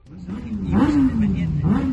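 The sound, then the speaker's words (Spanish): Motorcycle engines roar at the 42nd Pingüinos international winter rally in Valladolid, a loud, steady droning note that climbs in pitch, dips back down, then revs upward again. “Y en Valladolid también ruge ya el motor de los más de 40.000 pingüinos que se espera que participen en la edición número 42 de esta concentración internacional de invierno.”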